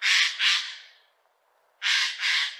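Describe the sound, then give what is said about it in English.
A Eurasian jay calls in a forest in Lower Austria: harsh, raspy screeches, loud and noisy, come in two pairs of quick calls separated by a short silent gap. “That's the sound of a Eurasian jaybird.”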